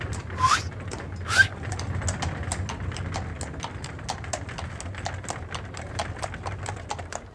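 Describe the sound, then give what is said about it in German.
Hooves of a horse pulling a horse-drawn cab on the way to Alexanderplatz clip-clop in a steady, even rhythm. Many sharp strikes run over a low, continuous rumble, with a couple of louder knocks near the start. “Rufen Sie eine Droschke.”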